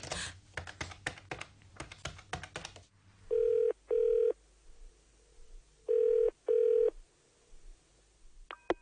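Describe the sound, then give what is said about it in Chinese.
A telephone being dialed: many quick, clicking key presses, then a steady tone, then four even ringing tones in two pairs. A faint click follows at the end. “我要打电话给祖心问清楚。”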